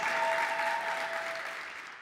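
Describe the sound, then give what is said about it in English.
Audience applause welcoming two guests on stage, a dense, steady wash of clapping that stays loud throughout and eases slightly toward the end. “So please give a warm round of applause and warm welcome to Diana and Anastasia.”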